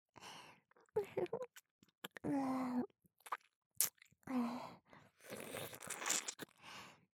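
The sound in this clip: Soft, close mouth sounds of pretend ear eating in ASMR: wet smacks, small crunchy clicks and licking noises in quiet bursts, with short breathy vocal bits between them.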